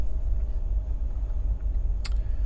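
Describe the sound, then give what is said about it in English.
A semi truck with a trailer backs into a loading dock, with a steady low engine rumble throughout and a brief sharp high sound near the end. “I'm going to back into this dock, and there's probably 40 or 50 feet between what would be the nose of the trailer and this little snowbank.”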